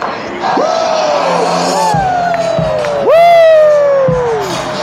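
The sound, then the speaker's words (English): A large stadium crowd cheers loudly in a continuous roar, with three long whooping shouts rising above it; the last one, near the end, is the loudest. “Oh, TCF getting loud now.”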